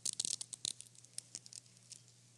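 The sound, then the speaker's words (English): Thin plastic seal crinkling and tearing as a prepackaged communion wafer is peeled open: a faint run of many small crackles, densest at the start and thinning out toward the end, with no voices. “I invite you to peel back that first very thin layer, and you'll find a wafer.”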